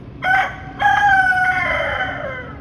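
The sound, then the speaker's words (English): A rooster crowing in a video: a short opening note, then a long, loud drawn-out crow whose pitch falls toward the end. “And so she decides to post a video of the rooster”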